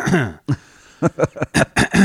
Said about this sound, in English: I've got this weird cough thing, but I've always had that.